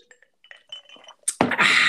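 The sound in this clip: An ice cube clinks in a glass with a few faint, light ticks, followed near the end by a sudden louder, broad rushing sound.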